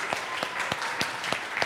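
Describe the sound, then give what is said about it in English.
Audience applause for a child at a family dedication ceremony: a short burst of steady clapping with regular sharp peaks and no voices over it. “Can we put our hands together for Lewis?”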